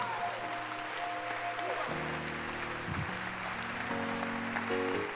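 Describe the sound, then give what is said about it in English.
Congregation clapping hands during a church sermon: a dense, steady wash of claps lasting throughout, with sustained instrumental tones beneath that shift in pitch partway through. “Can you clap your hands?”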